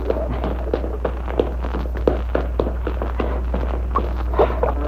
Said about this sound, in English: Let's make a quick run across the deck. Take my hand. Come on.